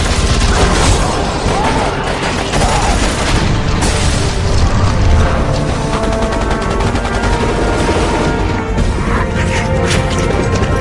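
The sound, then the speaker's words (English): Heavy, continuous automatic gunfire from an out-of-control turret in a video game, with dense rapid shots and booming impacts that stay loud and unbroken throughout. “The turret's out of control.”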